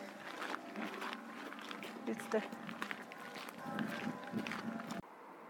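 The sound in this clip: Running footsteps of someone hurrying ahead along a gravel path, a quick series of faint steps that stay low under people talking throughout.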